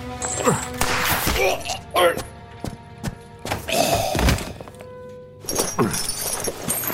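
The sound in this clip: Heavy thuds and crashing impacts as chains are blasted off in a video game, arriving in several loud bursts separated by quieter gaps.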